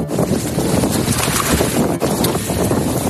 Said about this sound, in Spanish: En estas mismas aguas, Rusia ha lanzado maniobras con buques con armamento nuclear, como el famoso submarino Belgorod K-329.